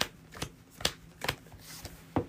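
Playing cards are drawn one at a time from a deck during a card game. Several quiet, papery snaps and slides come at fairly even intervals over a faint hiss, and no one speaks.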